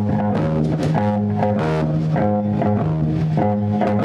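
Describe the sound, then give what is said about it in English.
A bass guitar plays the plain way most bass players sound: a steady, repeating line of round, low notes in an even rhythm, loud and continuous with no talk over it. “The basic difference is that most bass players sound like this.”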